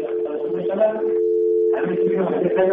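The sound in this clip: Steady telephone line tone after a caller on a radio call-in line hangs up, a constant mid-pitched hum held throughout, partly overlaid at the start and end by muffled voice-like sound.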